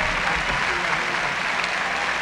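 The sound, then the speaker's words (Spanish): Audience applause welcoming an orchestra conductor in Veracruz: dense, continuous clapping at an even level from start to finish, with no distinct peaks or pauses. “primero la invitación a que aparezca, y con él la bienvenida de un aplauso.”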